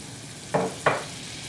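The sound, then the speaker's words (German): Butter melts in a pot over medium heat while being browned, giving a faint, steady sizzle with two brief crackling bursts. “Butter wird einfach mal in einem Topf zerlassen.”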